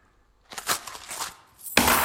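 Coins from a purse of money spill and clink in a drama scene, a scattered run of bright metallic rattles followed by a louder clattering burst at the end.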